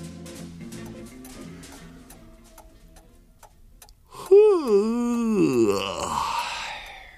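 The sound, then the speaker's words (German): A loud, drawn-out voiced yawn swoops down and back up in pitch with a groaning quality, following several seconds of quieter rhythmic, ticking tonal sounds. “Axel Hose kratzte sich an derselbigen und gähnte laut vor sich hin”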